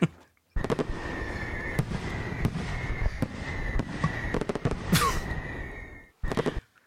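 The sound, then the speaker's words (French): Fireworks burst in a dense run of sharp bangs and crackles that keep going for several seconds. After a short gap, one last brief crackling burst follows. “Pour ceux qui n'ont pas reconnu, c'était un son de feu d'artifice.”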